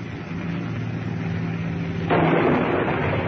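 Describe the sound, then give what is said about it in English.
A demolition bomb explodes on an apartment house near a park. It comes as a sudden swell of broad, heavy roar partway through, breaking over a steady droning engine rumble. “Hold that heading. First demolition bomb's on.”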